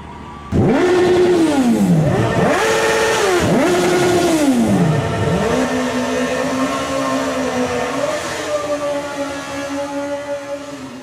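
Black motorcycles rev loudly, the engine note repeatedly swooping down and back up several times before settling into a steady, droning idle that fades slightly toward the end.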